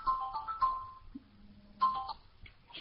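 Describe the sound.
A phone rings with bright, faint electronic tones in two short bursts separated by a pause, and a low hum sits between them.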